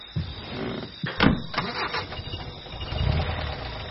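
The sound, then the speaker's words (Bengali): A taxi engine is started, giving a few short cranking bursts before settling into a low rumble toward the end. “Manmatha ট্যাক্সিতে চেপে বসলে চালকটি গাড়ি start দিল”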